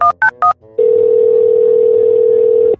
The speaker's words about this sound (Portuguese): Deixe-me fazer uma ligação. Dois segundos.